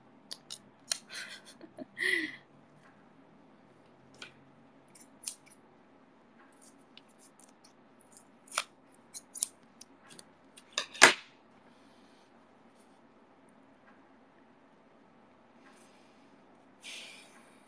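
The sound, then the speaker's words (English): Scissors cut stickers in sharp, isolated snips spread across a quiet background, with one louder cut near the middle. “this is the last sticker, and then I need to cut new ones.”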